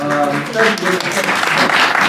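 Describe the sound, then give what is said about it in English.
Applause from a church audience during a homily, with dense, continuous clapping and a voice speaking over it at the start. “Thank you for the applause.”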